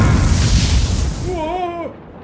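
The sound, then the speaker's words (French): A fire spell explodes in a cartoon battle, a loud roaring burst of broad noise that fills the whole clip and fades at the end, with a brief wavering vocal-like tone rising over it near the close. “Voici mon sortilège de feu. Tout le monde à plein vent!”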